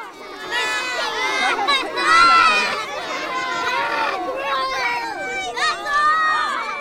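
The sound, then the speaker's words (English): A crowd of children shrieks and exclaims as milt from a male salmon is added to eggs in a fishery biologist's fertilization demonstration. Loud, overlapping voices rise and fall throughout. “And that's the reaction as one of Cope's brave assistants from the crowd added the next ingredient in the egg fertilization process using a male fish.”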